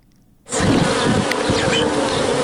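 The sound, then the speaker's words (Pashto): Honeybees buzzing at a bee farm where the bees live in hive boxes. After a short quiet start, a loud, steady, dense drone of many bees begins abruptly and holds without a break. “د شاتو دا مچی په صندوقونو کې ژوند کوي”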